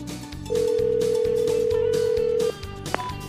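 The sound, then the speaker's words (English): Telephone ringback tone on a call to a sporting goods shop, one steady electronic tone lasting about two seconds over a low, steady background. “So here we go. Dialing up Steve Koski at Indian Country Sports and Lots.”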